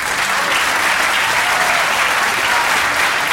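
Audience applause for Comédie-Française performers: dense, steady clapping that holds an even level throughout, with no voices rising above it.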